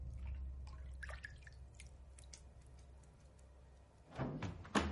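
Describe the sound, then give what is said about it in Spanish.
A hand moves through bathtub water at home as the temperature is tested. A few light drips and small trickles come first, then a louder burst of sloshing splashes near the end. “En su casa, Clara comprueba la temperatura del agua de una bañera.”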